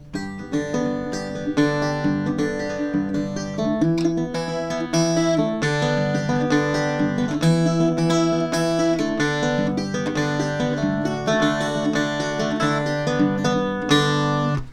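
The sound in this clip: Finger-picked Irish bouzouki plays a basic G chord in a quick, steady stream of bright plucked notes over a droning low string, continuing alone throughout with no voices.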